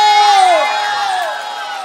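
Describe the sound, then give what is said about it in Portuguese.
A crowd in Viradouro cheers and shouts loudly together, sustained voices sliding downward in pitch as the roar tapers slightly toward the end. “Bate palma e dá um grito!”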